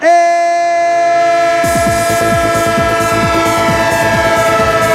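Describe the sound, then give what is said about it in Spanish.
A train horn holds one loud, steady chord throughout, while the rhythmic clickety-clack of passing wheels on rails sets in partway through and continues to the end. “¡El tren de Radio Estadio! El tren de 1-0, el tren del fútbol”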